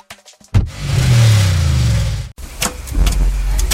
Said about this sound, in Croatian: Opet lupka, treska, vergla, još mi treba izmjena guma.